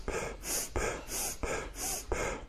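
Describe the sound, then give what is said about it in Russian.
Kapalabhati breathing exercise with active nasal inhalations: a steady run of forceful, airy breaths through the nose, repeating at a quick, even rhythm of about two per second, with no talking. “И начинаем дышать. Капалабхати номер два. Выдох у нас такой, вдох у нас активный носом.”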